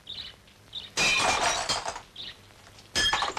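Window glass shatters in two loud, crashing bursts with bright tinkling fragments, each lasting about a second. Faint, brief bird chirps are heard in the quieter gaps between them.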